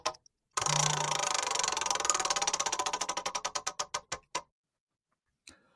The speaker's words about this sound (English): But I'm spinning the wheel, so we'll see.